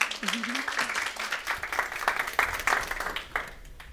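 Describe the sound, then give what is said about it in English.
Audience applause welcoming a speaker at a women's ministry gathering, with distinct individual claps forming an uneven patter that thins toward the end, and a voice sounding briefly at the start. “So please give a warm welcome now to Charlotte Travis.”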